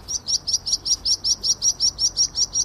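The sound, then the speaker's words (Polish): Skylark contact calls given during migration: a rapid, evenly spaced series of many short, high chirps, repeated several times a second, clear and alone. “to głos skowronka. To nie jest ten najpopularniejszy głos, który państwo znają skowronka. To jest głos kontaktowy w okresie przelotów.”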